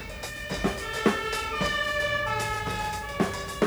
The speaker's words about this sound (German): Er wird von einem roten Feuerwehrauto überholt.